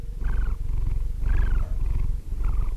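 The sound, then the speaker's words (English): A sleeping cat purrs in a steady low rumble that runs without a break. A faint tonal note swells over it in three slow cycles. “This is the sound of my cat, Sammy, sleeping.”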